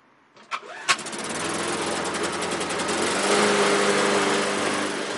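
An old engine that had never been used on a farm starts up with two sharp bangs, then settles into a steady, busy running drone that holds to the end.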